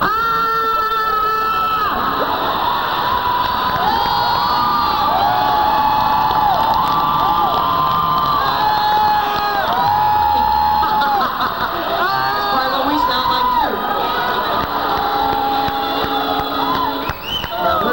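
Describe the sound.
Concert audience cheers and shouts at a band between songs, a broad, loud wall of voices with whoops and high yells rising over it. The noise holds steady for the whole stretch and eases slightly at the very end.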